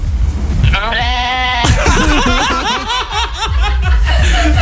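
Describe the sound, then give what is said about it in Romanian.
A goat bleats loudly in long, wavering cries, with one drawn-out call followed by a string of choppy, warbling ones whose shape sounds oddly like a spoken word. “Băi, deci este prima capră de asta din lume care a zis vreodată șurubel.”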